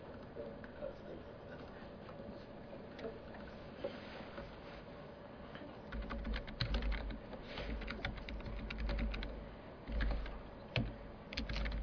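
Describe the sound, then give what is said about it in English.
Keyboard typing as an address is entered on a computer, with rapid, irregular keystrokes clicking over a low steady hum that begin partway through and continue to the end. “I guess I could put that address up on the screen here. I'll just type it here.”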